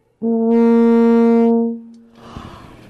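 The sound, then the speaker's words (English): A single sustained note on a euphonium: a low, rich brass tone held steady in pitch for about one and a half seconds, then fading, followed by a short, softer noisy sound. “but then on the euphonium it would sound like this.”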